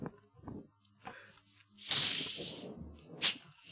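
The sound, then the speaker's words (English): A cream soda can cracks open with a loud, sharp hiss as it fizzes over for about half a second, then a brief second spurt of spray follows. “Oh, oh, cream soda's volatile. Yep. I didn't even shake it.”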